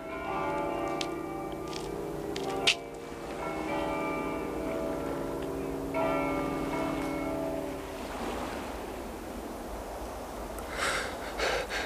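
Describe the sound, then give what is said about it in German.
Church bells ring over a deserted town, sustained overlapping tones that hold for several seconds before giving way to a broad, rushing wash of noise. “Die Glocken.”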